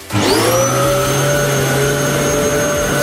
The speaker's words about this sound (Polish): To był odkurzacz.